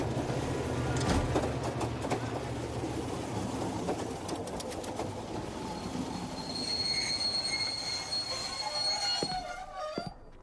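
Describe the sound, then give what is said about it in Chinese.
A train pulls into a station and brakes, its wheels squealing against the rails. Steady loud rumble, with shrill high squeals rising over it in the second half and sharp brake screeches near the end. “各位旅客请注意，列车即将到达秦岭车站，有在秦岭车站下车的旅客，请您整理好。”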